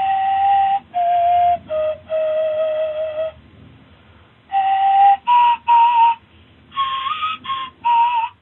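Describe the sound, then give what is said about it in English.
Breathy whistling notes from a replica Ice Age flute made of vulture wing bone, about 9 inches long, playing a short melody of several steady-pitched notes in two phrases separated by a brief pause, heard alone. “One of the flutes is made of a vulture wing bone, about 9 inches long. A replica sounds like this.”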